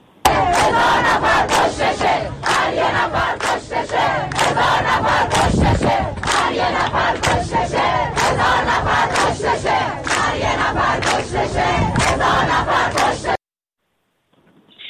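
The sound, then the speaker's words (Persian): Mourners chant protest slogans as a crowd, loud shouted chants in a steady rhythm. The many voices come in repeated pulses for about thirteen seconds, then stop abruptly. “مردمی که برای همدردی آمده بودن باز هم ساکت نبودن و اعتراضهای خودشون رو به با شعارهاشون نشون دادن. بخشی از صدای اینها رو محمد من ضبط کردم، اگر قابل پخش هست الان میتونیم بشنویم با هم.”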